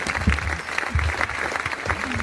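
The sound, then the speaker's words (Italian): Applause: dense, steady clapping from a crowd that lasts a couple of seconds at an even level. “Vai, merci, applausi.”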